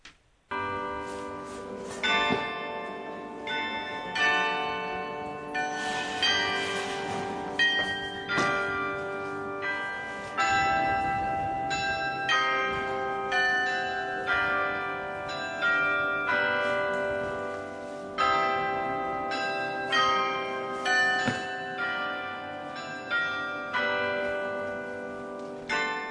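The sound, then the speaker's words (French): A church bell carillon plays a Christmas carol, a slow melody of struck, ringing bell notes, each decaying into the next, sounding fairly soft and steady throughout. “Tout le monde a reconnu Douce Nuit. Évidemment, ça fait partie du cheptel, du capital de chant que l'on peut jouer pour Noël.”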